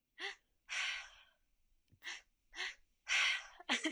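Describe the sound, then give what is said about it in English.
Mouth breathing during breathwork, drawing belly then chest breaths and releasing them through the mouth: a series of quick, airy inhales and longer breathy exhales, each burst separated by brief silences, fairly quiet and without talk. “you do a belly breath and a chest breath. So belly, chest, breathe out, and it's all through your mouth.”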